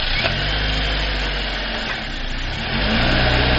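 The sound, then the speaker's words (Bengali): A car engine runs at a steady, rough, mid-low drone, then revs louder near the end as it picks up power. “গাড়িতে উঠে বসে start দিলাম আমি।”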